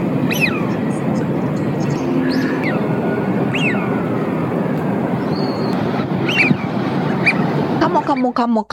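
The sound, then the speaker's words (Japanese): Ducks making a commotion: many overlapping, high, harmonic quacking and honking calls repeat throughout, set over a loud, dense, steady background rush. “オープニングでね、あの鳥が大騒ぎしてるのはね、カモ”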